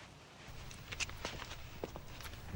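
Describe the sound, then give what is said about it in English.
Footsteps of a man running along a flat roof near the top of a tower block: a few soft, quick steps, faint and fairly even against a low background hum. “Joe Logart is running along a flat roof close to the top of the tower block. There are no side walls.”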